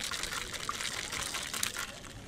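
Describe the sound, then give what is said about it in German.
Fruit juice pumped into a cup by a homemade drink machine with a row of blinking pumps at a maker festival; a steady, splashing liquid rush runs continuously throughout, with no clear pauses. “haben hier diesen Saft in den Becher reingepumpt”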